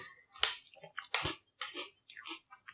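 Boo Berry cereal with milk is chewed close up in a string of short, irregular crunching bites with soft, wet squishes between them.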